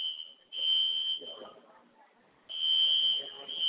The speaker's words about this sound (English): We do apologize, ladies and gentlemen. The fire alarm is still off. My color commentator is covering the alarm so you can hear me.